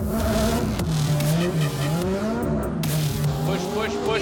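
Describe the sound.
A drifting car's engine revs and surges continuously while its tyres squeal and skid, the engine note wavering up and down throughout without a break.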